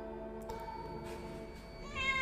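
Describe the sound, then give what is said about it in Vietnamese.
A cat's meow in an audio drama, where a cat cries out after being startled, heard faintly over a steady, sustained tonal background that grows slightly louder toward the end. “Bỗng nhiên có tiếng mèo kêu nghe lão lòng kinh khủng.”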